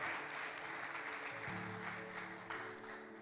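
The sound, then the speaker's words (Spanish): An audience applauds with a dense, steady patter of clapping that continues throughout and eases slightly at the end. “¿Por qué no le damos un aplauso a todos los que sirven en esa maravillosa familia?”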